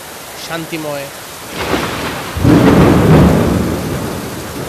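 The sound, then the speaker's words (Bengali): Rain falls with thunder, a steady hiss that swells as a deep rumble rolls in past the halfway point and lingers to the end, after a short voice at the start. “বৃষ্টির শব্দটা খুব মানে উপভোগ করার মতো। এটা একটা অনেক”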